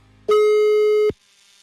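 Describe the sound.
A telephone busy tone after a diverted call: one loud, steady, mid-pitched tone lasting just under a second that starts and stops abruptly, heard alone.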